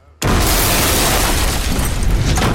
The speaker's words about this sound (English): And by psychology, I mean dynamite.